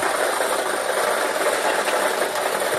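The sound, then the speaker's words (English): A lottery draw machine spins the balls for a daily numbers game, giving a steady, dense whirring rattle that holds at an even level throughout with no voices. “Let's get these balls spinning so you can start winning.”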